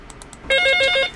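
Telephone ringing with an incoming call: after a brief quiet moment, a loud burst of rapid, high electronic trilling pulses sounds alone for about half a second.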